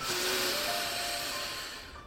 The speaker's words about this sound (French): viens prendre une longue inspiration par le nez